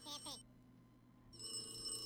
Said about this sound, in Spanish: ¡Contesta el teléfono!